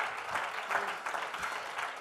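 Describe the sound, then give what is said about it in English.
Congregation clapping hands in church during worship, a soft, continuous patter of many hands with gentle pulses, faint and even throughout. “Oh, clap your hands unto the Lord.”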